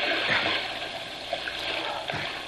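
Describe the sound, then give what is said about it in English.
Someone swimming through water makes continuous sloshing and splashing, with a few swelling surges of churned water. “Let's swim to the opposite side. That's it. Come on.”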